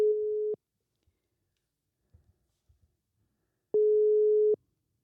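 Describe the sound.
Two steady, single-pitched telephone tones sound while a call is being dialed. Each tone lasts under a second, with about three seconds of near silence between them and only a few faint clicks in the gap.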